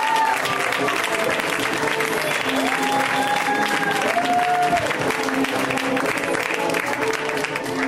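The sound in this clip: An audience at a comedy show applauds as a comic is introduced, with dense, steady clapping that holds at an even, loud level for the whole stretch.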